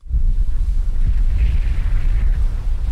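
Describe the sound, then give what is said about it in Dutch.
Wind blows outdoors in wet, rainy weather in Middelburg, a loud, steady low rumble of gusts buffeting the microphone throughout, with no voices. “Het regent, het waait.”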